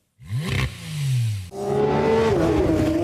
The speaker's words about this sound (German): Einen Porsche anlassen, das klingt nach Spritfresser.